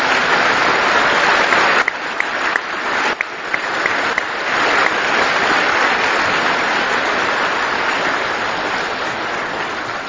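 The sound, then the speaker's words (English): Dense, sustained applause from an audience honoring veterans at a ceremony, a loud, continuous wash of many hands clapping that holds steady for the whole stretch, with no voices standing out. “Finally, join me one more time with a round of applause and appreciation for our veterans in attendance today”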